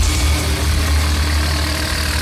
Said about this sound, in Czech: Prostoru nádraží u Skokolejky v Kamenici nad Lipou jede nakladač. Na vidlích má těžké dubové pražce.